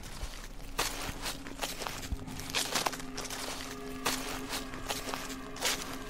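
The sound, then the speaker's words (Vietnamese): Footsteps rustle and crunch over medicinal leaves spread out to dry at the edge of a porch. The steps are a series of soft, dry scuffs at an unhurried, fairly even pace. “Tiếng bước chân loạt soạt dẫm qua cái đám lá thuốc mà ông phơi ở ngay đầu hè.”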